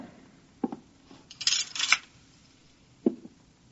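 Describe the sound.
A curtain is drawn: a soft click, then a brief metallic scraping swish, then another faint click, all quiet.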